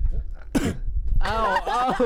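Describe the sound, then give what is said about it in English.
A single wet cough, thick with mucus, bursts out sharply, then a strained, voiced vocal sound follows. “That one, like, actually wasn't fake. Like, that one actually had some mucus.”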